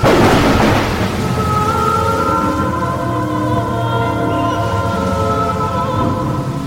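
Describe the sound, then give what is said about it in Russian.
Rain beginning to fall in a storm: a broad rumble like thunder opens, then a steady wash of noise continues with sustained, layered tones held beneath it. “Стал накрапывать дождь.”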